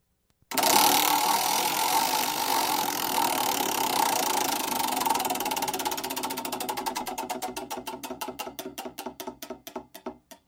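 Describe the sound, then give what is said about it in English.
A spinning prize wheel clicks against its pointer, starting as a dense rapid whir of ticks that gradually slows into clearly separated, evenly fading clicks as the wheel winds down. “All right, anyone have the wheel? Okay, I'm going to spin it here.”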